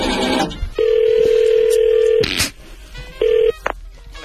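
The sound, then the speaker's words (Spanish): Telephone tones while a number is dialed to reach someone: a steady electronic tone holds for well over a second, breaks off with a click, then returns briefly, over faint background noise. “No, tenemos que marcar el teléfono.”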